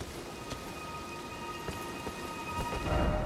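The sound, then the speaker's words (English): Steady rain patters in a video game while low thunder rumbles and swells louder near the end. A faint sustained tone hums underneath. “It's raining.”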